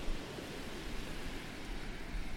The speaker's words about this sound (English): These waves were recorded on an ebb tide on Deal Beach on Sunday, October 4th, 2020.